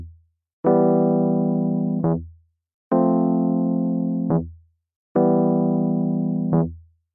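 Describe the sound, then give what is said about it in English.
A ground bass note E, played normally as a short, quick low note, lands just after each of three sustained, evenly held chords. The cycle repeats in a steady rhythm with no voices. “Played normally, the bass note is quick and anticipated and sounds like this.”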